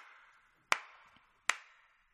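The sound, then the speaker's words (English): Hand claps added to the end of a sung line as part of a clapping pattern: two sharp, loud claps less than a second apart, each with a short decay, over a quiet background. “So you've got to add three claps at the end of the first two lines and the last line.”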